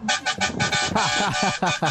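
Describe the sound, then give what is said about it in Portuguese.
Car horns are honked by people on the road in celebration. Loud, steady-toned blasts repeat and overlap in a quick, uneven rhythm. “É o povo buzinando. Povo bonito buzinando com a gente.”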